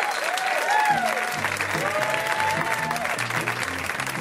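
An audience applauding a comedian as she is introduced, a steady, loud wash of clapping that holds evenly from start to finish.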